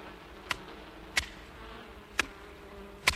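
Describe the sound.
Bees at beehives behind a farmhouse make a faint, steady drone in the background. Four sharp, short knocks break in at uneven intervals.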